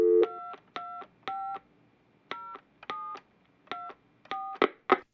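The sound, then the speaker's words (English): Telephone keypad tones as a number is dialed: a short steady tone, then a series of crisp beeps in uneven bursts with brief pauses between groups. The last few beeps come faster and sound sharper. “No, I think you may have dialed the wrong number.”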